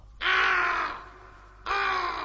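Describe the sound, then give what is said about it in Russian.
A black raven gives two harsh, hoarse caws, each a loud drawn-out rasp, separated by a short gap, with the second call cut off at the end. “Конечно, кроме черного ворона, который сидит на ветке, все видит и все слышит.”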